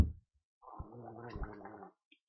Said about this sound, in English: That's disgusting. Yeah. No one knows what you were gargling then.